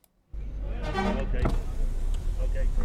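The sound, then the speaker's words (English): A car drives across the Turkey–Syria border, its steady low road rumble starting after a brief silence, with a voice talking over it. “Driving through the border now. No checks at all, just straight through this border”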